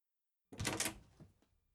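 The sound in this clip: A door opening: one soft, quiet clunk with a brief rattling decay, alone with no other sound around it.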